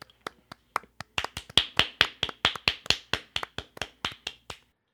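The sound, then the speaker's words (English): Many sharp hand claps from a round of applause, a few sparse claps at first that settle into a quick, steady rhythm and then stop. “We just gave him a solid round of applause.”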